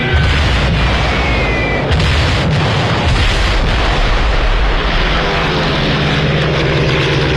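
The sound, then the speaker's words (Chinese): A siren-equipped Stuka dive bomber in a dive, heard as a loud, continuous roar of aircraft engine noise that fills the whole clip, with no talking. “斯图卡式俯冲轰炸机装备有警报器，训练有素的飞行员在下降过程中必须忍受住高压，并在最后一刻向目标精确投放炸弹。”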